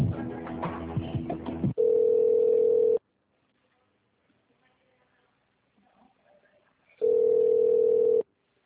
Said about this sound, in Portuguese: Por favor, aguarde. A sua ligação já será atendida.